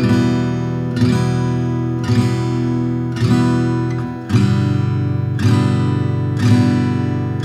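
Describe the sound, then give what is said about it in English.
Slow acoustic guitar downstrokes ring out at a steady pace, first on E minor and then, about halfway through, switching to G. Each full strum sustains into the next, and there is no talking. “And then let's try and do four on the E minor and four on the G6. It should sound something like this.”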